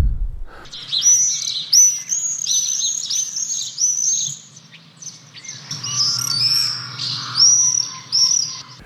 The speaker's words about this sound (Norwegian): da du skjønt at det en tårnseiler, og ikke noe lovesval, eller sandsval, eller taksval